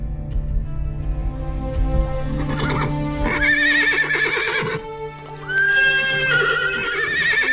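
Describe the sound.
Carriage horses neigh as they stand ready to depart: loud, shrill whinnies that waver up and down in pitch, repeated several times in close succession.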